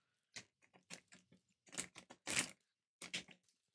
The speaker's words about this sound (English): Good little crinkle sound effects here on the mic, right?